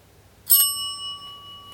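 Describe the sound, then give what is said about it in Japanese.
A hand bell, used in place of a boxing gong in a company warehouse, is struck once and gives a bright metallic ring that sustains and slowly fades. “ベル用意しました。これをゴンクの代わりにしましょう”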